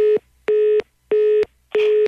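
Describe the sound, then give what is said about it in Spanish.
Telephone busy tone after a call is hung up: four evenly spaced, steady mid-pitched beeps, each about a third of a second long with short silent gaps, clear and alone. “Poquito Loki ya colgó y dijo que ya no te va a contestar ninguna llamada”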